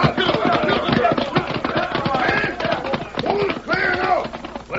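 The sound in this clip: Rapid clattering hoofbeats of horses riding up, many quick beats running together at a loud, even level throughout.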